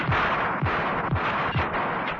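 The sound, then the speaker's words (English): An automatic pistol fired at point blank: a quick run of heavy, booming shots at an even rhythm over a dense, rumbling noise bed, with no voices. “Mrs. Peel reached into her pocket and withdrew an automatic pistol. As the enormous figure pushed crates and boxes out of its way, Mrs. Peel crouched down and then fired at point blank.”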